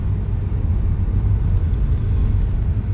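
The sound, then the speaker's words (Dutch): Car driving through a forest, heard as a steady, continuous low rumble of engine and road noise without voices. “Lekker door het bos. Precies om 4 uur rij ik langs Tremstraat 22.”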